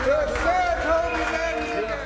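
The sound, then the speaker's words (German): Cheering from a group of people, a dense blend of whooping and shouting voices that holds steady for about two seconds. “Ein Jubel!”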